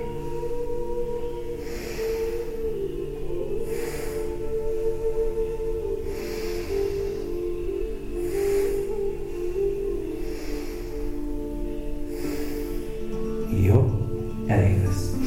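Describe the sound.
Breathing exercise with forced exhalations and relaxed inhalations: many rhythmic breath bursts roughly every two seconds over a steady low drone.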